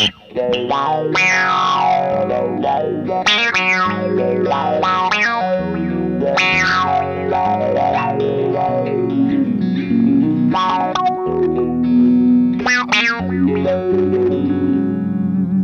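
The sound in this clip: An electric guitar played through an envelope filter gives each plucked phrase a vocal, wah-like sweep whose tone rises and falls with the attack, with a thick, slightly distorted sound that rings out over sustained notes.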